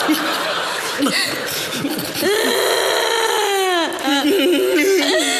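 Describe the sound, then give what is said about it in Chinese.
Loud, tearful sobbing and crying, with wavering, strained voiced cries that rise and fall in pitch. “别哭了啊，别哭了”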